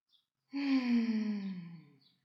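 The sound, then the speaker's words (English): A single long, audible sighing exhale with a faintly voiced tone that slowly falls, preceded by a very faint short intake of breath, during a relaxation breathing exercise. “So allow yourself to just breathe in and out.”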